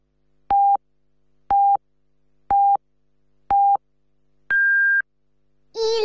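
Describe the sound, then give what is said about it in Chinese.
Hourly radio time signal pips: four short, identical beeps a second apart, then a longer, higher-pitched final tone, with a voice beginning right after. “107石狮广播电视台综合广播为您整点报时。”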